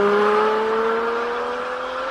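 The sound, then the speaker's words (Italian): A Lamborghini Diablo Roadster engine with all-wheel drive revs in a loud, steady, smooth drone whose pitch climbs slowly throughout, with no voices. “Lamborghini Diablo modello Roadster. Esatto!”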